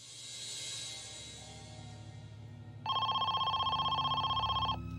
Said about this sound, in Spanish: Esperaban que esta fuera la llamada que pudiera asegurar la liberación de Amy.